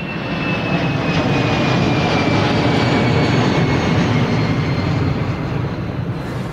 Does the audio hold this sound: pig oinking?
no

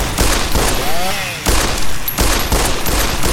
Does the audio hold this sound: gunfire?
yes

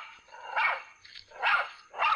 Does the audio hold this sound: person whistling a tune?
no

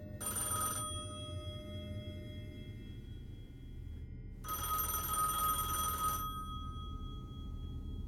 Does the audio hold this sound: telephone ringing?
yes

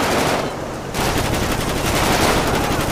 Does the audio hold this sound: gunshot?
yes

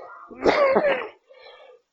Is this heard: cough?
yes

